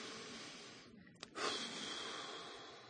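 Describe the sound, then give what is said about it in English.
A single deep breath, soft and airy, drawn slowly and heard alone at low volume with a brief rush of breath partway through. “Find a soothing, quiet spot where you can take a deep breath. Take two.”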